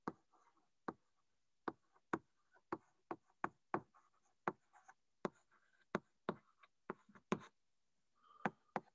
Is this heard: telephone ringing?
no